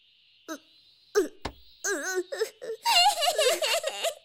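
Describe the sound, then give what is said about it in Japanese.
A person cries in wavering, sobbing wails: a few isolated whimpers and catches at first, then a longer stretch of continuous quivering, moaning cries that rise and fall. “泣き出すほど好きだなんて。”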